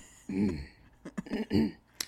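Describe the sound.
A woman's loud, screamy sneeze bursts out in a strained, voiced blast. A few shorter vocal bursts and a sharp click follow, and no one speaks over it.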